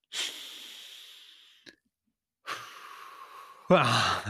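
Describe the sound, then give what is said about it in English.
Three people at a school take loud, deep breaths together in long, airy rushes of over a second each. The second breath ends in a short voiced burst. “Really loud. Let's take a deep breath. Go on.”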